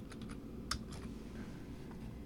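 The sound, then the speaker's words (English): Faint typing on a computer keyboard: a few irregular, light keystroke clicks, one sharper than the rest, over a steady low background hum. “I got to type in the Part 2.”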